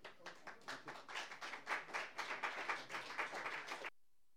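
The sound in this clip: An audience applauds to welcome a performer at an open mic, steady clapping for about four seconds that stops abruptly.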